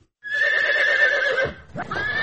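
A horse in Atbashi district neighs in one long, loud, quavering whinny, then gives a shorter second call after a brief dip. No one speaks.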